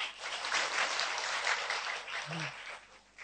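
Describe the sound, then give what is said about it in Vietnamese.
An audience claps at a Buddhist talk, mostly older listeners. The applause is faint and steady, with a light, rapid patter that eases off toward the end. “thầy thấy toàn là mấy người già vỗ tay không, mấy người trẻ không vỗ tay.”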